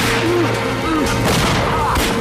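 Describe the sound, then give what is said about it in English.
Rapid gunfire fills a shootout between a gang and police, a loud, dense barrage of shots and booms blending into one continuous roar. “The gang advance towards the police, firing. Hare aims, fires, and walks forwards, firing again. He's taken out.”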